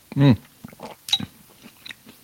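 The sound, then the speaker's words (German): Someone eats minestrone soup with wet slurping mouth noises: one louder burst at the start, then a few softer slurps and smacks with quiet gaps between them. “Übrigens, für die, die sich wundern, was hier für Geräusche um die Ecke kommen, ich schlabbere eine Suppe nebenher.”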